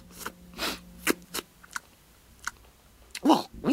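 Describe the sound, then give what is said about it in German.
Wet smacking and slurping mouth noises, many short irregular smacks at a moderate level, with a louder cluster near the end. “Schlabber- und Schmatzgeräusche haben dich auch amüsiert.”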